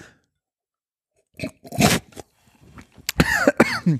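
Coughing after a deep sniff of a sparkling ginger drink. After a silent pause come a few harsh coughs, then a denser burst of rough coughing and throat clearing.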